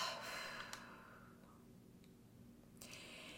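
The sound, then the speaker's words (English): A big deep breath is taken during a guided loving-kindness meditation, a soft, airy rush that slowly fades away. Another faint breath begins near the end. “And then take a big deep breath.”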